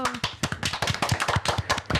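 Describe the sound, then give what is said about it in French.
Applause for a correct answer on a French children's quiz show: a brisk run of sharp hand claps from a small group, following a brief bit of speech at the start. “Bien joué, on peut l'applaudir.”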